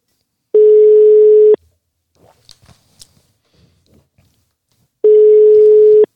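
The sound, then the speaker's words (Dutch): A ringback tone sounds while a telephone call is placed: two long, steady, mid-pitched electronic tones of about a second each, separated by a pause of several seconds with faint clicks and rustles. “Laten we hem eens gaan bellen. Ik hoop wel dat er opgenomen wordt. Dit is natuurlijk een raar nummer.”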